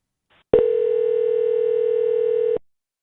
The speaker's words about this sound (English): Sounding phone.